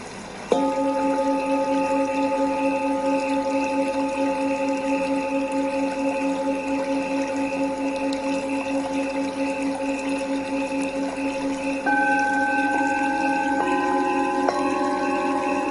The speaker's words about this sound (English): So this is a singing bowl.